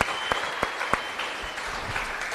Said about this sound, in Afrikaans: Ja, jullie kan maar voor jezelf handen. Klap voor jezelf handen.